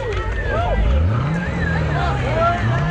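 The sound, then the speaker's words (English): A yellow Corvette passing in a parade gives a loud, steady, low engine rumble that swells and eases slightly over a few seconds, with other faint sounds above it. “Nice yellow Corvette. Boy, that's a beauty, too.”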